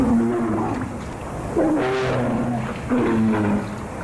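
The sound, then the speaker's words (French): Deep, rumbling growls of a polar bear. Two louder, drawn-out vocal bursts come through in the second half, over a constant noisy background with no talk. “Eh bien, c'est évidemment l'ours polaire.”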